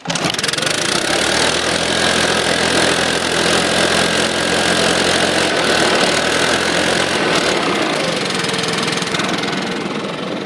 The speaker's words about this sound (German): Also der ganze Motorpack ist gedämmt. Und dadurch, dass das Rohr die Form hat, das gibt ein bisschen dumpferen Ton.